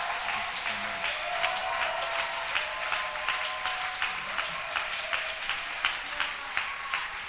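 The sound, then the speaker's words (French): Church audience clapping for the Lord in steady unison: many regular beats at a brisk, even pace, fairly soft, held at a constant tempo throughout. “Let's clap for the Lord.”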